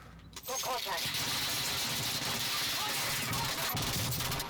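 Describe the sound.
Gunfire in the video game Call of Duty: Warzone. Many rapid shots crackle over continuous game noise while players talk.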